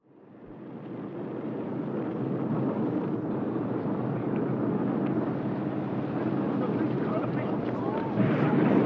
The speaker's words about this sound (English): What's going on? Those are Minuteman missiles. Like a test, sort of. Like a warning? They're on their way to Russia.